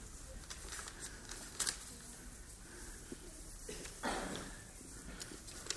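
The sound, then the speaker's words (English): A red envelope holding an invitation is opened, giving faint paper crinkling and rustling with a few sharper tearing or crackling bursts over low background noise. “Do you mind just opening it for me? Lovely red envelope.”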